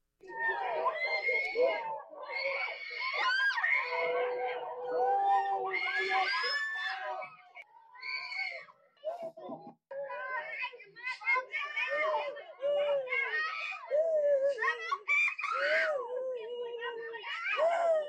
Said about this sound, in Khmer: នេះជាសម្លេងស្រែកទ្រហោយំរបស់ក្រុមយុវជននិងពលរដ្ឋនៅពេលដែលក្រុមសមត្ថកិច្ចចម្រុះរួមទាំងកងសន្តិសុខខណ្ឌប្រមាណ50នាក់បានសម្រុកចុះចាប់យុវជនចលនាមេដាធម្មជាតិ4នាក់